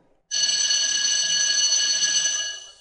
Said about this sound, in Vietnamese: Tiếng chuông báo hết giờ bỗng vang lên giòn giã, vang vọng khắp khuôn viên trường.